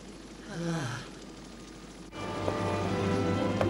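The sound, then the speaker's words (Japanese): A helicopter's steady engine drone starts abruptly after a short breathy sigh, holding an even, moderate level with a low tonal hum. “あ、このヘリあと一人しか乗れない。”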